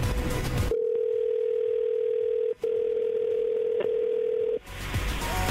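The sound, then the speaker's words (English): A telephone dial tone plays while a call is being placed. A steady, unchanging tone holds for about four seconds, with one brief break in the middle, and other sound comes at the start and end. “we're gonna call her right now and see if we can't find out what went wrong.”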